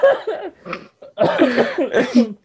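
Coughing in a few rough, voiced bursts that come in quick clusters, loud and somewhat laugh-like, with no clear words.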